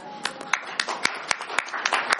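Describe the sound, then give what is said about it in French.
Scattered clapping from a small group at a meeting, greeting a presenting team: sharp, separate hand claps in an irregular rhythm over a faint background rather than a full, dense round of applause. “Donc, on applaudit le groupe numéro 3.”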